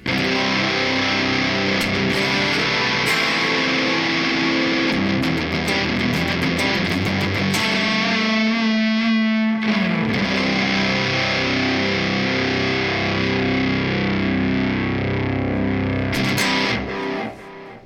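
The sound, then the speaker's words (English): Distorted electric guitar tone run through a Glass Hyperluminal compressor and an MXR 10-band EQ into two tube power amp sections and two cabs, blended together: thick, dense sustained chords ring steadily for the whole stretch, with one held note in the middle. “and then it has the MXR 10-band EQ after it, going into two different cabs, two different power amp tube sections, and this is what the blend sounds like.”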